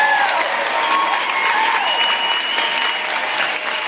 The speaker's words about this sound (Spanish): claro que sí, un aplauso para mi amigo Gus Beckmar